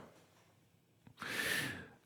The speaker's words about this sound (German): der Hund schnarcht ein wenig, Lotte